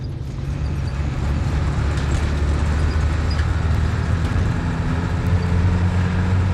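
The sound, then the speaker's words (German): Bus engine labouring up winding mountain roads in the valleys between Kathmandu and Pokhara, a loud, steady, low drone that continues without a break. “Ganz mühsam quält sich Herr Bus, in dem wir sitzen, hier jetzt die Serpentinen hinauf, in den Tälern, die zwischen Kathmandu und Pokhara liegen.”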